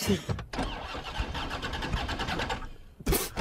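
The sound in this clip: A car engine starts with loud, continuous, mid-pitched churning that lasts about two and a half seconds, framed by short separate bursts of sound at the beginning and end.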